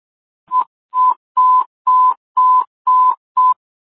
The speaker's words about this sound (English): Alert tone 3.